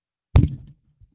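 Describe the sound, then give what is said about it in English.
A dull, heavy thump sounds as a person's head, nodding off to sleep, bumps into a microphone. A short decaying rumble follows, then one faint soft tap. “That was my head hitting the microphone.”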